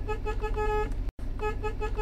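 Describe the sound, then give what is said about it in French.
A van horn honks in a village as a travelling shop arrives to see if anyone is home: two long, steady blasts with a short silence between them. “Là, on va klaxonner un peu pour voir s'il y a quelqu'un.”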